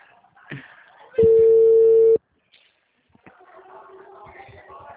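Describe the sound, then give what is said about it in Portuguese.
A single telephone ring tone sounds as a call is placed: one steady, loud, even tone lasting about a second, with a man speaking softly just before it and talk resuming after a pause. “Tô ligando.”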